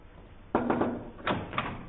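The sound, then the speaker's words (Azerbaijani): A door being shut in a home, heard as a few sharp thumps and rattles: one strong bang, a couple of lighter knocks, then a second strong bang and a final knock, over quiet background noise. “Otağımın qapısını bağlayıb.”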